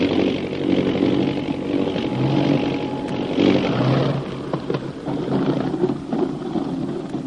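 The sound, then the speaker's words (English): An airplane descends to land with a continuous engine drone, a rough mechanical hum whose loudness wavers gently across the whole stretch without ever stopping. “We're dropping now for a landing.”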